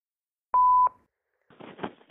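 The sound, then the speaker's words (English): An answering machine beep: a single steady, mid-pitched electronic tone lasting about a third of a second, clear and isolated against silence. “Leave a message after the beep and I'll call you back, if I feel like it. Beep. No, this is the real one.”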